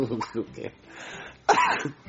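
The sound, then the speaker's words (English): A single loud, rough cough from a person bursts out after a stretch of brief vocal sounds, with more voice trailing softly after it. “I coughed.”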